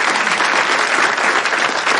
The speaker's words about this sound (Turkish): Bir alkış.